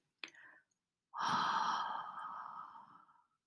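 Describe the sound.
A slow, audible exhale during guided meditation breathing comes after a brief sharp intake of breath. The long, soft, airy outbreath fades gradually to silence.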